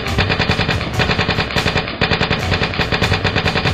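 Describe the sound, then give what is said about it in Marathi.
Automatic gunfire erupts as soldiers search a house during an army operation, loud and sustained, with rapid shots crowding together and barely any pause across the stretch. “एका घराजवळ येताच आता आपली सुटका नाही हे लक्षात येताच घरात घुसणाऱ्यांवर ऑटोमॅटिक गन्स बरसू लागले.”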